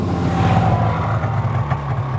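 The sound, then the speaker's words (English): A shiny white truck's engine drones as it drives up: a loud, steady low rumble with a faint higher whine, continuous throughout with no voices. “Until one morning, a man in a shiny white truck drove up.”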